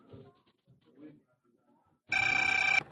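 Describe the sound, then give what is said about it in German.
A telephone rings in a hotel room: one steady, bright electronic ring lasting under a second, followed by a brief sharp tone. Faint low voice sounds come before it. “Das Telefon riss ihn aus seinen Erinnerungen.”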